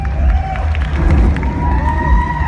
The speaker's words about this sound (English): And you could tell the audience goes nuts as soon as they recognize it.